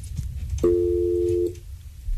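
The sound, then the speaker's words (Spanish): A single steady telephone ring tone as a caller's line connects to a radio call-in show, a loud, level, mid-pitched tone lasting under a second over a low background hum. “Vamos a recibir otra llamada.”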